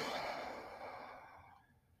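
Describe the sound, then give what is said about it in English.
A deep breath released as a long, airy exhale during a guided calming moment. It starts fairly strong and thins out gradually over about two seconds, with no voice on top. “Just take a deep breath”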